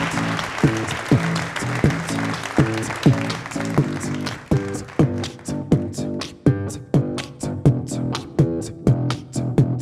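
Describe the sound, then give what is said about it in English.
Audience applause for the band Prototype at a live show, loud, steady rhythmic clapping that continues throughout. “Who wants to hear one more from Prototype? Let's give it up for Prototype.”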